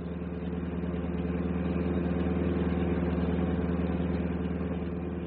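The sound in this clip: A bus engine drones steadily while the bus is driven, a constant low rumble with an even, unchanging level throughout and no talking.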